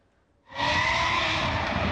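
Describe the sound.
Drift cars roar and skid at a round of the Turkish Drift Championship at an exhibition centre in Gaziantep. After a quiet start, a loud, dense burst of engine noise and screeching tires breaks in suddenly and holds steady to the end.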